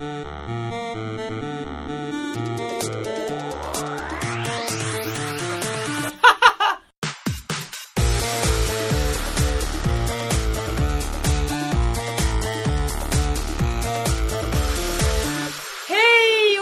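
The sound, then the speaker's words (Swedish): An intro jingle plays: layered electronic music with a rising swept tone over a steady pulsing beat, a brief choppy break in the middle, then dense rhythmic music resuming and ending on a short rising tone. “Nu kör vi igång, så jag. Ja, starta vignetten.”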